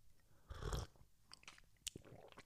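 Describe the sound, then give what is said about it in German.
Someone takes a sip of tea: faint, soft slurping and swallowing mouth sounds, a few short clicks and a breathy burst, heard alone without talk. “kurz mal einen Schluck Tee trinken”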